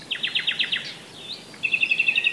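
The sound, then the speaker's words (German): A nightingale singing strongly, starting with a fast run of repeated high, bright notes. A short slurred phrase follows, then another rapid, evenly pulsed series of piercing tones. “so wie die echten Nachtigallen eben. Und die singen jetzt besonders kräftig.”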